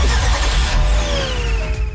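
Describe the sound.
A car engine starting and revving within a traffic-report jingle, loud and continuous, with tonal sweeps gliding downward in pitch over a low engine rumble.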